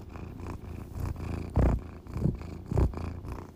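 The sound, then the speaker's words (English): A domestic cat purring, a low, steady rumbling purr with a few louder pulses swelling through it, alone without any voices. “There we go. That's my cat.”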